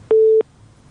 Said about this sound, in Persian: بله بله متاسفانه که است تماس فریبا جان هم قطع شد.